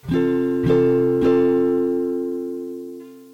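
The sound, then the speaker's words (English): An F major barre chord on guitar, fretted at the eighth fret in the A shape, is strummed three times in steady succession, then left to ring and slowly fade. “And the third is barring the 8th fret with an A chord shape, and it should sound like this.”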